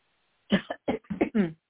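A person with a tickle in the throat coughs and clears it in a quick run of several harsh, throaty bursts, the last one longer and rasping, after a moment of near silence.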